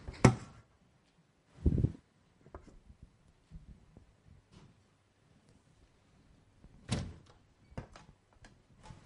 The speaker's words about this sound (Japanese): Close the back door.